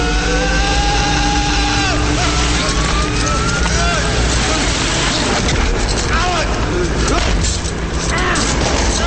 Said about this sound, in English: The fan picks up speed, spinning him at the end of the rope against the circular walls of the shaft.